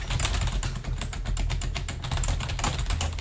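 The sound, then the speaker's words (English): Fast, continuous typing on a computer keyboard while entering text into spreadsheet cells, a dense stream of clicky keystrokes with no talking. “When you type it, I'm just gonna type a whole bunch of things here.”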